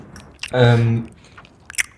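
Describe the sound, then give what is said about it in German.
Chewing while eating: a few short, moist crunching bites around a brief voiced murmur from the eater, fairly loud. “Ich gehe jetzt etwas essen. Du bist schon dran, so wie ich höre.”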